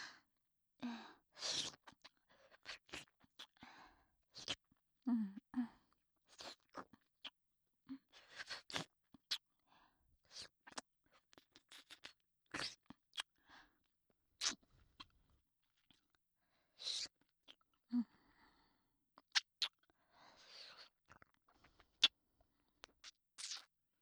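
Wet, close-up mouth sounds of grape-flavoured candy being licked right beside the ear: many soft smacks, clicks and slurps in irregular bursts separated by brief silences, faint overall.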